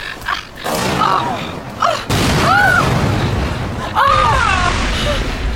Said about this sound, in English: You were going to shoot me! I was aiming at the lock.